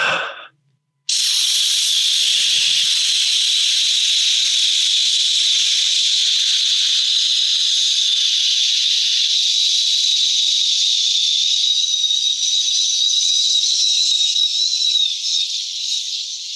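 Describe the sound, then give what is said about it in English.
A voice imitates the hiss of a sleep sound machine, a steady breathy shushing hiss held evenly for about fifteen seconds after a brief start. “We have gotten accustomed to having them sleep with a sound machine. You know, we talked about this back in the day. So I'm going to just go ahead and give you about 30 seconds of a.”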